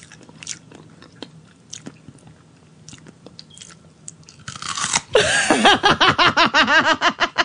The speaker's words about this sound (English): sounds like this. It's a lot of chewing.